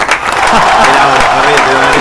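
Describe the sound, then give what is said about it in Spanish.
Loud, dense applause for a colleague's retirement on his last working Friday, steady throughout, with voices speaking over the clapping. “esto merece un aplauso. Vamos, vamos.”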